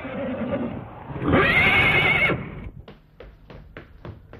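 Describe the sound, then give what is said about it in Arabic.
A horse, cast as a flying horse in an Arabic drama, lets out a loud, high whinny lasting about a second, followed by a run of sharp, evenly spaced hoof clops. “الله، مولاي، ده الحصان الطيار.”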